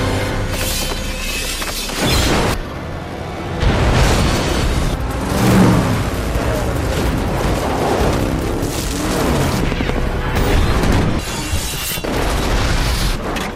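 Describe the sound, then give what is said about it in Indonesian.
Gunfire and explosions from a film chase scene in which a man flees a destroyed house on an old man's motorcycle while being shot at. Dense, loud rumbling bursts and crashes pile up continuously, with many heavy impacts and no clear pauses. “Saat rumah dihancurkan, Wolverine berhasil kabur dengan motornya si kakek. Wolverine terus dikejar dan ditembaki.”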